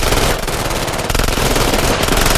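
Rapid automatic gunfire from two submachine guns fired out of a car window at night toward a house, a loud, dense, continuous rattle of shots with no pauses throughout.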